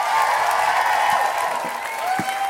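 Applause and crowd noise from an audience welcoming a performer to the stage, a steady, fairly loud wash that holds level throughout.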